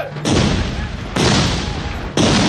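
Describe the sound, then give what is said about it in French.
Swiss guards fire musket volleys on command against sans-culottes during the French Revolution, producing three loud, evenly spaced booming blasts. Each blast is followed by a rumbling decay. “« À mon commandement ! Feu ! »”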